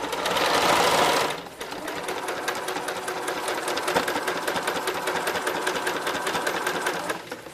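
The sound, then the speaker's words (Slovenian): A sewing machine stitches slippers made from old jeans, running in a fast, steady mechanical chatter throughout, with a louder, denser burst at the start before it settles into its even stitching rhythm. “jaz šivam copate trenutno iz kavbojk, ki so bile namenjene za stran”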